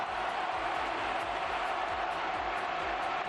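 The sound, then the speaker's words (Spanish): Stadium crowd at La Cartuja acclaiming a Spain player's performance, a dense, unbroken roar of cheering at a constant level. “Escucha, Manolo, cómo reconocía el público de la Cartuja la actuación de la perla de los palacios.”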